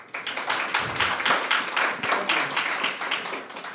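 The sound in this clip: An audience applauds to welcome a speaker at a talk on repatriation and resilience. Lively, dense clapping holds at a moderate level throughout.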